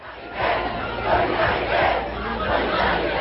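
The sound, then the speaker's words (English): Crowd of protesters demonstrating in France against dilapidated, understaffed schools and teacher shortages, a dense, steady roar of many shouting voices that swells in repeated surges throughout. “That's the sound of more demonstrations against dilapidated and understaffed schools.”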